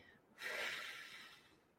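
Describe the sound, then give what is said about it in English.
One deliberate, faint breath: a soft airy rush that swells quickly, then trails off slowly with no other sound around it. “So please breathe in, but breathe out intentionally.”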